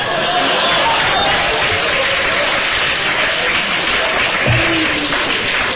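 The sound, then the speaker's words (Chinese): Applause from an audience at a Peking opera performance, a loud, dense, continuous clatter of many hands clapping that holds steady throughout without a break. “就这您还给鼓掌呢？”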